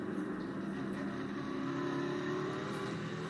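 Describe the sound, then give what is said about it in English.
Stock car engine in a racing video game on a lap around Phoenix, a steady, loud, gritty drone that holds without a clear rev change. “Rev it up, man. Take you a lap around Phoenix.”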